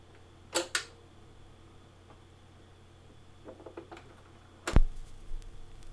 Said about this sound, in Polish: te przyciski nie są pod pokrywą, one są dosłownie na przedniej ściance. No i naciskam play.